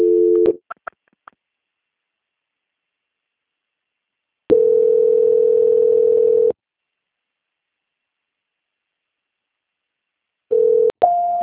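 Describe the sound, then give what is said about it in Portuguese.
Telephone line tones while a call is transferred to another department: a short steady tone and a few clicks, a long silence, then a sustained two-second tone, more silence, and a final pair of brief tones. “peço que a senhora aguarde linha, que eu vou transferir a sua ligação ao setor de qualidade”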